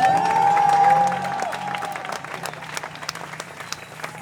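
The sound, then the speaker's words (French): Crowd applause at an open-mic gathering for a water protest convoy, loud at first, then easing after about a second into thinner, scattered clapping that continues to the end. “Oui, vous pouvez applaudir.”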